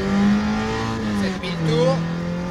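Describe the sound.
A car engine revs hard in second gear toward 7,000 rpm, moving up through the gears. It is a loud, continuous harmonic drone with a brief dip in the middle before the roar builds again.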